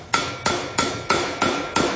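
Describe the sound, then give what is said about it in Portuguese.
Six evenly spaced hammer taps as artisans trim loose ends on a malachite-based piece. Each tap is a crisp, loud strike with a short ringing decay, and the taps keep a steady rhythm with no voices. “a base em malaquita escolhida à lupa pelos mestres artesãos, é preciso ainda aparar pontas soltas, uns toques de martelo”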